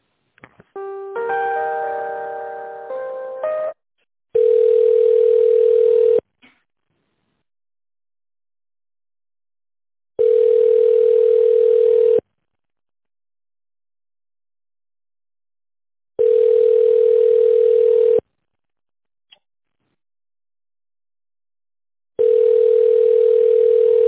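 Telephone line tones while a call is being transferred to another department: a brief burst of mixed tones, then four long, identical steady beeps, each about two seconds, separated by several seconds of silence.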